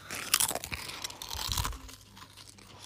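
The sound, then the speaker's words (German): Crunching and chewing of spicy crisps: a few sharp, crackly bites in the first half, then softer, steadier chewing with no talk. “weil ich Chips essen will. Die sind scharf.”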